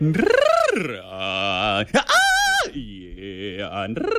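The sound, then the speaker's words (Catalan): Guttural vocal warm-up sounds: a voice holds long groaning tones that swoop up and down in pitch, loud and rough, broken by a brief pause midway. “I estàs fent sons guturals per escalfar aquesta veu, ho he sentit, eh?”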